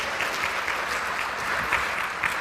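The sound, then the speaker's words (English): Audience applause in a lecture hall, a dense steady wash of clapping hands at moderate level, continuous throughout with no voices standing out. “And a warm applause.”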